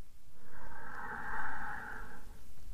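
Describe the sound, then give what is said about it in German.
One long, deep breath drawn in through the nose, a steady airy hiss that swells and holds for a couple of seconds, heard alone. “Und einmal drei ganz tiefe nährende Atemzüge durch die Nase ein”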